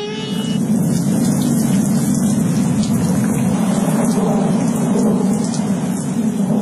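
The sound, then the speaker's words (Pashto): Heavy rain pours steadily with rumbling thunder rolling through it, a loud, dense, unbroken roar that holds from start to finish. “یوه ورځ نجومي دربار ته ورخطا راننووت او پاچا ته یې وویل په لنډو ورځو کې یو خطرناک باران را روان دی.”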